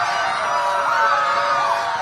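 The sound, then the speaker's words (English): Crowd cheering in front of the U.S. Supreme Court after the ruling overturning the constitutional right to abortion, a sustained mass of voices with whoops and yells rising above the steady roar. “The announcement was met in front of the court with cheers”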